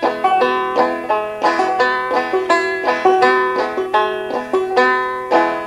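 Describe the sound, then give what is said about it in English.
Acoustic guitar in open G tuning playing an F chord with up-picking on the fifth string, a steady rhythmic stream of plucked notes ringing together and repeating in a rolling pattern, played alone. “Or if we did the up-picking with the fifth string, that F chord would sound like this.”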